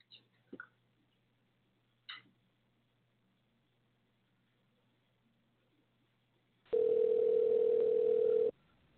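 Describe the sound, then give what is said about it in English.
Telephone ringing tone while a caller is dialed in: a few faint clicks, then after a quiet pause one steady buzzing tone lasting about two seconds before cutting off. “We're dialing him in now, dialing her in now.”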